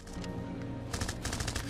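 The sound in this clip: Machine-gun fire from a violent video game, heard as rapid bursts of shots at a low overall level. The sharp bursts become denser and louder in the second half.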